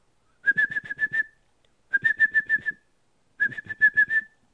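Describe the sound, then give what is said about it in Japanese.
A person whistles as if training a dog: three short bursts, each a rapid string of about six clipped notes at a steady high pitch, separated by brief pauses. “口笛を吹くんですね。これは犬とかをなんとか、まあ、しつける時の口笛の吹き方ですね。”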